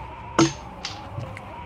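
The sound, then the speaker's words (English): Dice dropped on a table during a tabletop role-playing game: one sharp clack lands first, followed by a few fainter taps and clicks as they settle. No talk is heard. “I've dropped my dice. I can't seem to find my dice.”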